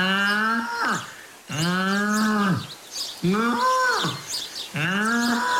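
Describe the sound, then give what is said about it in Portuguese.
A calf moos four times: long, drawn-out, strongly harmonic calls with short pauses between them. Each call is loud and steady and is heard alone, with no voices. “feita pelo nosso animal adivinho do Mundial, o bezerro que colheu o Paulo Núncio.”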